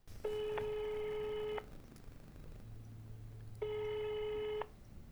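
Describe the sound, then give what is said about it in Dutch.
A telephone rings back while someone calls a literature museum director. Two long, steady electronic buzzing tones come about two seconds apart, fairly quiet over a faint low hum. “Misschien moeten we de directeur van het Literatuurmuseum gewoon even bellen. Weet jij hoe die heet? Ja, dat is Aad Meinders, dus die kunnen we bellen.”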